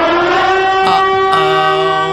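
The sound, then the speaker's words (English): A siren sound effect plays as a tiebreaker cue in a quiz game: a loud, sustained electronic wail with strong stacked harmonics that holds for the whole clip, with a brief break in tone partway through. “I just really wanted to play the siren effect.”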